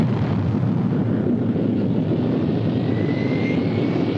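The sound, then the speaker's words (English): A simulated rocket ignition and launch roars on Disneyland's Rocket to the Moon ride in Tomorrowland. The deep, loud rumble stays dense and unbroken from start to finish. “My number three is Rocket to the Moon from Tomorrowland here at Disneyland. One, ignition.”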